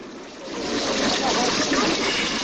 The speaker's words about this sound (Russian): Не удалось насладиться зрелищем фонтана, так хотя бы напьемся воды из маленькой фонтанеллы.